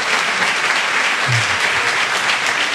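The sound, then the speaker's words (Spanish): Applause from a radio programme audience, a steady, even wash of clapping that holds at a constant level for the whole stretch, with no voices over it. “acabas de arrancar el aplauso de un programa de radio. Esto no te lo habrías imaginado ni en tus mejores momentos.”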